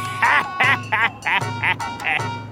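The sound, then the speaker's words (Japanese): Ducks quack in a Japanese folk tale about a man catching ducks frozen on a pond, six loud, nasal quacks in a quick, uneven series. “休んだまま凍って動かなくなっていましたゴンベイはその様子を見て喜びますこれはカモ100羽取れるぞ100羽も売ればお金をどっさり稼げるな”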